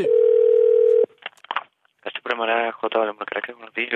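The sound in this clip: Ringing tone of an international telephone call, one steady ring lasting about a second, then a few clicks followed by a person talking.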